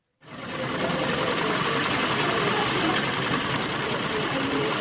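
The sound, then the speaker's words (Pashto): Several sewing machines whir in a women's tailoring salon of the Paktia women's affairs department as cloth is stitched. A loud, steady mechanical drone starts abruptly after a short silence and runs on without pause. “دا د پکتیا د خدو چارو د ریاست په وسالون کې د خیاطۍ یا د جامو ګنډلو ماشینونو غږ دی.”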